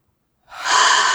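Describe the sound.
A deep breath drawn in during a guided breathing exercise: after a moment of silence, one airy, hissing inhale swells quickly and holds steady to the end.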